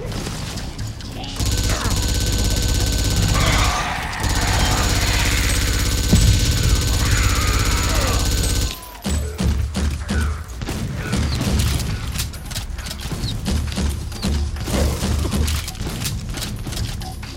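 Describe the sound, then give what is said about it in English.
Minigun fire in a video game: a loud, sustained, rattling mechanical burst for about nine seconds, then a brief drop and further rapid, choppier clatter. “That minigun reminds me of certain weapons from Ascent, if you've ever played Ascent before.”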